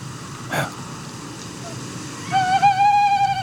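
Male tawny owl call played from a phone app: one sustained, clear hoot with a steady pitch enters near the end, after a short click and low background hiss.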